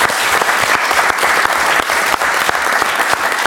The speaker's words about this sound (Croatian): ja mislim da reprezentacija zaslužuje jedan aplauz cijele vlade.